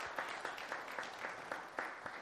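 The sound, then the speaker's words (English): An audience applauds children for taking part in worship, a fairly faint, steady patter of clapping with louder claps recurring at a regular rhythm. “we ought to give them a hand clap of praise for what they did.”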